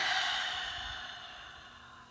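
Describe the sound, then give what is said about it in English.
A single long breath exhaled through the mouth during a guided cleansing-breath exercise: a soft, airy rush that starts fairly loud and fades steadily over about two seconds, with no talking. “And exhale through your mouth fully.”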